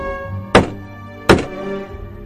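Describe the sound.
Two heavy, dull knocks on a door, evenly spaced less than a second apart, loud against faint sustained background tones.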